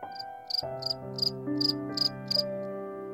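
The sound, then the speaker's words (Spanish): Cricket chirping from a cricket that has jumped onto a breakfast table: a series of short, high, buzzy chirp pulses repeating at a steady rhythm over sustained, lower musical tones. “un grillo brincó a la mesa.”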